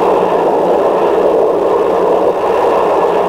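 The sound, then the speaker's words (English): Jet engine of a Harrier GR Mark 1 during vertical lift-off and transition to wing-borne flight: a loud, steady, roaring hiss that holds constant throughout without breaks. “The engine nozzle rotates and the Harrier lifts off. Now the nozzle lever is moved slowly forward, rotating the nozzles to the horizontal position and accelerating the Harrier into wing-borne flight.”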